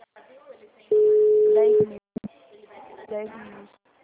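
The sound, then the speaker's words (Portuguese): A single steady ringback tone sounds as a telephone call is placed, lasting about one second at a constant medium pitch, with talk before and after it. “Agora eu vou ligar”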